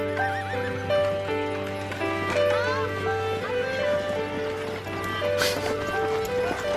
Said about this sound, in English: So I'm gonna play the music that gets played in the opening scene, which is kind of goofy. I don't know what it is. I don't know what the point of it is, but you pointed it out.